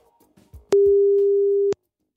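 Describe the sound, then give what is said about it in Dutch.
A telephone ringback tone on an outgoing call: one steady mid-pitched beep lasting about a second, loud and clear, with quiet moments before and after. “Daar gaan we eens even over bellen met Janneke Hoving.”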